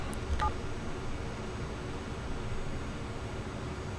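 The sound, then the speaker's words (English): Telephone dialing a speed-dial number: a few quick, faint keypad tones at the very start, followed by a steady line hiss for the remainder. “I have one of them in speed dial. Let's see if it goes through.”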